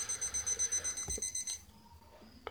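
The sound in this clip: Alarm clock ringing in a rapid, even train of shrill high-pitched pulses that stops after about a second and a half, leaving faint low hum and a few soft knocks.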